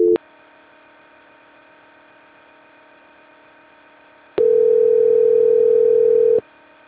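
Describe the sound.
Telephone dial tone during a call transfer: a steady pure tone cuts off at the start, a faint hum lingers, then the tone returns loud for about two seconds before stopping abruptly.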